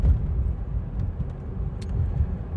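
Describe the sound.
A car drives along with a steady, low rumble of engine and road noise. The sound stays even and moderately loud throughout, with no one talking.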